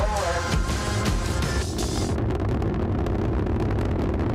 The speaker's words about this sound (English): Liftoff, the shuttle has cleared the tower.